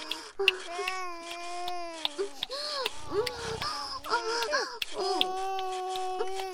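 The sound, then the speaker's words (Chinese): A baby cries after waking, wailing in several wavering, high-pitched bursts with short breaths between them. The cries rise and fall in pitch and stay fairly loud throughout. “你孙子醒了，在哭呢，我把他哄睡。”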